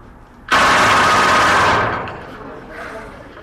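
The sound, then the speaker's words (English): Gun fired on full automatic at a firing range: one loud, dense rattle of rapid shots lasting over a second, then cutting off into a fading tail. “Change the fire control lever to full automatic, fire in bursts of two or three. And a final blast, full automatic.”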